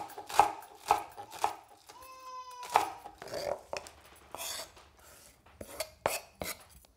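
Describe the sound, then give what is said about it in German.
Knife chopping Thai shallots and garlic on a board, a series of sharp, irregular taps and thuds of varying loudness with short pauses between strokes. “Sie schneidet nun Thai-Schalotten, die sind kleiner und aromatischer als unsere, außerdem etwas Knoblauch.”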